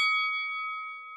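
A single bell stroke rings out as a clear, sustained metallic tone rich in overtones, fading slowly and steadily with no other sounds around it.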